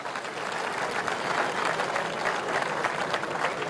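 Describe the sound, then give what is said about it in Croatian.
A crowd at a traditional folk-singing festival evening applauds the finalists. The clapping is dense and continuous, holding a steady level for the whole stretch. “molim jedan veliki aplauz za sve njih”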